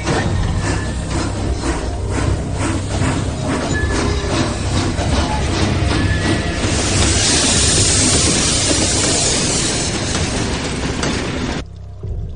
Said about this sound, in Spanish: Terminan de taparlas y el tren inicia la marcha. La locomotora toma velocidad tirando de vagones llenos de soldados.